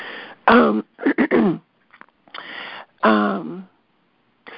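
A person clears their throat during a morning group call, several rough, raspy bursts separated by short pauses, loud and with no other sound.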